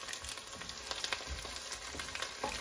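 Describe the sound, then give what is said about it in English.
Food sizzles and fries in a pan as it is stirred, tossed and churned while sautéing, a steady crackling hiss broken by occasional soft scrapes and knocks of the stirring. “And I'm stirring, and just stirring. And you can hear, and I'm stirring and tossing and churning.”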